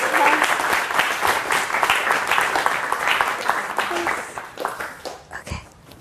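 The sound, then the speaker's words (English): A round of applause from a class during a lecture review session: dense, steady clapping that thins and fades over the final seconds, with some talk mixed in. “I think she deserves a round of applause.”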